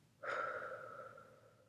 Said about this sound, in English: can you let go of all of that and just breathe in and out